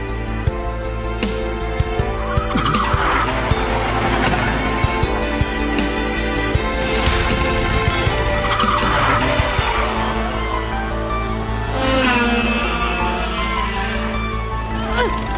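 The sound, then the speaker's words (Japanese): A go-kart engine strains at full throttle during a race, giving a raspy, buzzing drone that swells and eases in waves while staying loud the whole way through. “もっとアクセル踏めって。あの青ヘルメット追い抜くんじゃねえのか。”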